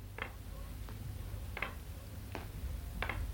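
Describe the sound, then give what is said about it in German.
Faint knocking: five light, sharp taps at a slow, steady rhythm over a low background hum. “Wer klopft da? Da klopft doch einer.”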